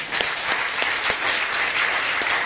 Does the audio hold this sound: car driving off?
no